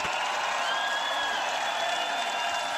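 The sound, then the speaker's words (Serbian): Audience applause at a live event, a soft, even wash of many hands clapping that holds steady for a few seconds without distinct individual claps. “jedan veliki aplauz za naše druge, Dejana Sutića.”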